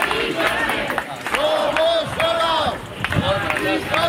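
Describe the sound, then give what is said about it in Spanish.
A crowd of thousands marching through Madrid from the Sol encampment in tribute, with many voices raised together in loud chants and shouts that rise and fade over a rumbling mass of people. “Este es el sonido de anoche en Madrid, donde miles de personas la homenajearon en una marcha multitudinaria, desde la acampada de Sol hasta su casa, recorrido en silencio, aunque interrumpido en ocasiones por algunos cánticos.”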